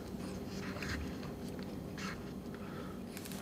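Chewing of a bento lunch, a steady run of soft crunchy bites and mouth sounds, quiet and unbroken, with no voices.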